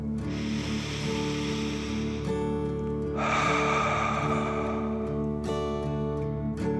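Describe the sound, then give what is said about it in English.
A slow, deep breath in and out during a guided relaxation meditation, heard as two long, airy rushes of breath over steady, soft tonal music. “You continue to trace the infinity symbol as you take another deep dragon breath in and out.”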